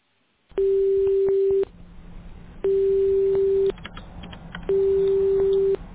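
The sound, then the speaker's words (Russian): A telephone ringback tone while a call is dialled: three steady, mid-pitched tones, each lasting about a second, separated by quiet gaps with low line hiss. “Абонент еще не взял трубку. Пока продолжается дозвон”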